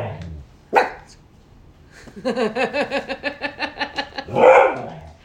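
A dog asking to be let outside gives a rapid, rhythmic series of high yips and whines. A louder, noisier yelp comes before the series and another follows it.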